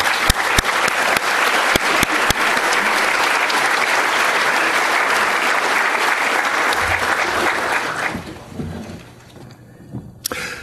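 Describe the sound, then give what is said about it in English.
An audience gives loud, sustained applause to welcome Professor Gigerenzer to a talk on risk. The clapping holds steady for about eight seconds, then quickly dies away, leaving a few scattered thumps. “Please join me in welcoming Professor Gigerenzer.”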